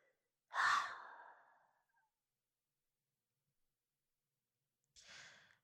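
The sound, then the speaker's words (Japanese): Deep breathing in and out: a long, airy breath that swells and slowly fades, then after a long pause a second, softer breath, both quiet and unvoiced. “深呼吸、深呼吸。すー、はー、すー。”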